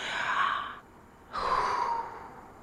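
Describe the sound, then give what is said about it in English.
A slow, deep breath is taken deliberately: two long, airy rushes of breath separated by a short pause, heard alone with no talking. “I'm going to breathe.”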